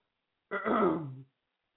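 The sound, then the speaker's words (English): One rough, throaty clearing of the throat as someone begins to choke, lasting under a second and sounding alone with no speech around it. “Sorry, I don't have a cough button and was beginning to choke”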